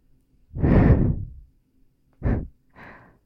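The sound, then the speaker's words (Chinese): Soft breaths blown gently into the ear: one long airy exhale, then two shorter puffs after a pause. No talk is heard. “温柔的气流进入你的耳朵，”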